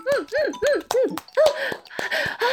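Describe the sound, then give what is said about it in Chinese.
A mobile phone ringtone plays a short, arched melodic tone that repeats several times in an even rhythm, loud and bright, then gives way to a busier, noisier stretch. “是我手机，主人，我手机响了”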